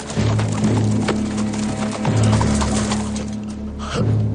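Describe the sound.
A horse's hooves clip-clopping in a Western scene, a steady stream of dull hoof knocks inside a dense, loud mix of other sound with a low tonal hum.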